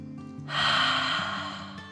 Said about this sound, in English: They took another deep dragon breath in and out.